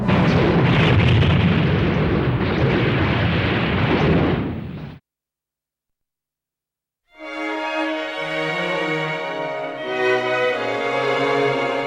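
A space warship fleet opens fire in a dense, roaring barrage of heavy explosions for about five seconds. The blasts cut abruptly to silence, then sustained harmonic tones follow.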